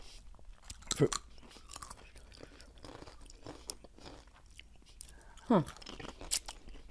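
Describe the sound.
Biting and chewing a spicy lemon-flavoured snack, a few crisp crunches and steady mastication with brief vocal sounds between bites.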